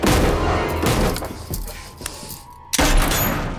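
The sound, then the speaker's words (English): A gunshot fired to blast the bolt off a hatch cover: a sharp, loud report that breaks a brief lull, surrounded by continuous heavy rumbling and booming noise. “shoots the bolt off the hatch cover”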